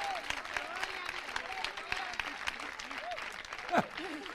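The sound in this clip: An audience applauds during a church service, a faint, dense patter of clapping running steadily beneath a man's preaching voice.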